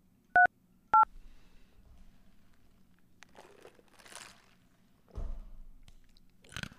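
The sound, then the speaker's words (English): Two short, bright telephone keypad tones dial an extension on an automated phone line, a fraction of a second apart, followed by quieter crinkling and rustling noises. “If you know the extension of the party you are trying to reach, you may dial it at any time.”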